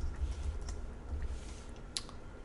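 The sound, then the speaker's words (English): A few faint keystrokes on a computer keyboard, soft irregular clicks spaced apart over a low background hum. “I'm going to hit Control X on my keyboard and move this to the very end”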